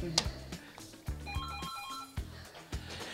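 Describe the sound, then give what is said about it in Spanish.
An incoming call sets a telephone ringing, a bright repeating electronic ring over a few dull, regular thumps, with no clear voices. “Mira, ahí están llamando, ¿qué les hacemos? Sí, la recibimos.”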